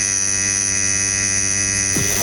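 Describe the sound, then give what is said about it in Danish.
A tattoo machine needle buzzes in a steady, loud electric hum rich in overtones that barely changes, with a brief shift in tone at the very end. “Ja, sådan en rigtig tattoo-nål.”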